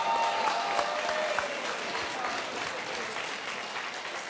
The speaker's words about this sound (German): Und jetzt gibt es noch einmal einen Sonderapplaus für die Emilia.